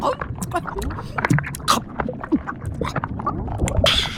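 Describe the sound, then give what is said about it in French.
Wet gulping and sloshing of a mosasaur swallowing whole a chunk of fish over a metre long, its jaw unhinged to let the piece pass; a dense run of clicks, gurgles and splashes, ending in a brief rushing hiss. “La mosasaure vient de gober un bout de poisson plus grand que sa gueule. Elle a complètement démantibulé sa mâchoire pour pouvoir laisser passer le morceau d'un coup.”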